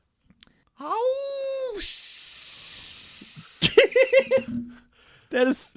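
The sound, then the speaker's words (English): A person imitates a wolf's call with a short wavering howl. A long breathy hiss follows, then bursts of laughter. “it's got the awesome scent, smell of a wolf. And it's even still got the ears. And its call is,”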